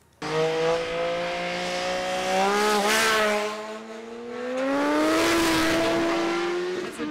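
Cars speeding on a winding hill road, taking bends at over 100 km/h and overtaking: a loud, sustained engine drone whose pitch climbs in stages as the vehicles accelerate, with no voices.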